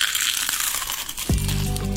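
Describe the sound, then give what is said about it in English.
Crunchy bite into fried onion rings at a restaurant, a dense crackling crunch filling the first part before lower tonal sounds take over near the end. “That sound never gets old. The sound of biting into one of our legendary Clementine's onion rings.”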